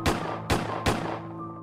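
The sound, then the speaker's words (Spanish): Gunfire as people open fire: three sharp, loud shots about half a second apart, each a hard crack followed by a ringing decay and a low lingering hum. “Me dieron órdenes, pero no las seguí. Eventualmente comenzaron a disparar.”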